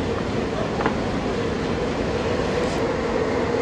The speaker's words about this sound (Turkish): Vapur hareket etmeye başladı.